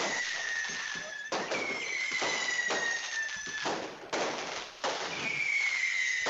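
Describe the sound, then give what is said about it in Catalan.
Fireworks rockets at a town Fiesta Mayor festival in Sant Joan d'Espí: many loud cracks and booming bursts follow one another, with whistling tones gliding downward between them. “Teniu molts coets per allà”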